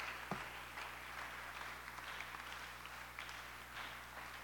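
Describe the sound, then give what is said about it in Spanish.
Faint applause from an audience praising the Lord during a church service, a soft, even patter of clapping over a steady low hum. “Aleluya, dale un aplauso al Señor, que estoy asfixiado para que me deje un break.”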